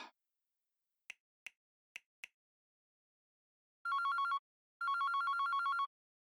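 A telephone ringing while calling a grandmother. Four short, sharp clicks come first, then two long electronic ring bursts, each a bright, buzzy tone, with silence around them.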